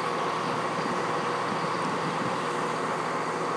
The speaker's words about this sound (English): that's a train on the platform on the other side, I think, that you can hear now.